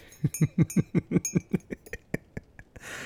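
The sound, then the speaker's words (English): Clinking of a utensil stirring something in a container, with many quick, regular metallic taps in a steady rhythm that grow fainter toward the end. “Are you enjoying stirring it?”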